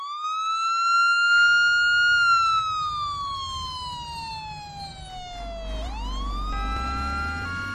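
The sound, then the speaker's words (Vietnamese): Ambulance and police sirens arrive. A loud wailing tone climbs, then sweeps slowly downward before jumping back up, and a second stepped siren pattern joins near the end over a low vehicle rumble. “Kìa, xe cấp cứu đến rồi kìa. Cả công an giao thông, rồi lại cả cơ động nữa.”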